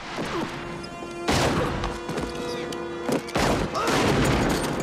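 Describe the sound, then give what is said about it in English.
Gunfire erupts in a bank shootout between robbers, a guard and a police officer: a few loud bursts of shots and crashing impacts, separated by brief quieter stretches. “The bank guard returns fire but misses, then Roach shoots him in the back, and in turn gets hit by the cop, who then takes out Gromit as well.”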